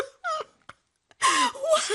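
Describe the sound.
A woman cries in sobbing bursts, with hiccuping gasps and whimpering, wavering wails separated by a short silence.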